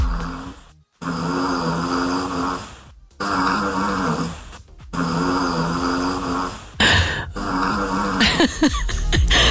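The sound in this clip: A dog snores under a bed at night, a loud, rough rattling drone that repeats in several long snores, each separated by a brief silent pause, with no voices.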